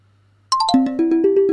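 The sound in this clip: A phone ringtone signals an incoming call on a live call-in talk program. It is a short electronic melody: a quick run of descending notes, then a steady series of pulsing tones over a low constant hum.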